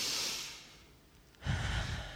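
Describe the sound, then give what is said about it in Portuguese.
A deep breath drawn in during a guided relaxation prayer: soft, airy rushes of breath, one fading out early and a stronger, fuller one rising near the end, faint and without talk. “Respira fundo comigo assim.”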